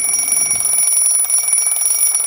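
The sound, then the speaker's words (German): An alarm clock rings on a school-day morning with a steady, piercing, high-pitched electronic tone. It holds at an even loudness for the whole clip, with no other sounds. “Da klingelt der Wecker.”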